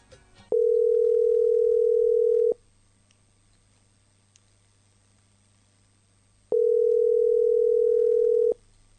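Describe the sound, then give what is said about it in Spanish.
Ringback tone of an outgoing phone call that goes unanswered: two steady, loud electronic tones, each about two seconds long, separated by a longer silent gap. “Ahora les voy a mandar llamada perdida ahí en la pantalla. Les voy a mostrar toda la llamada perdida, todo lo que estoy llamando”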